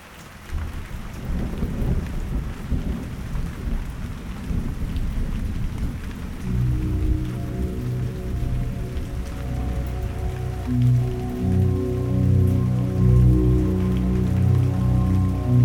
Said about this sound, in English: When I reach the tea house, the rain gets stronger and the thunderstorm rolls across the hills.